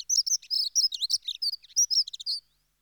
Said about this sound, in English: So the dunnock is small bird, size of robin, a bit like a robin, but without the red breast. Skulks low, doesn't go to the feeders, feeds on the ground, very much like the robin. And here's your dunnock.